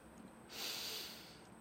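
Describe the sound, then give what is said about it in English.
A single slow, deep inhale during a guided meditation, soft and airy, swelling and fading over about a second above a faint steady hiss. “So completely sit back, relax, and take a deep breath in.”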